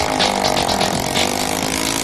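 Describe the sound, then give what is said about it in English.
A temperamental moped engine runs during a contraption-building contest. It makes a steady, rough buzzing drone that holds an even loudness with no clear pauses. “The boat boys have managed to fire up their temperamental moped engine.”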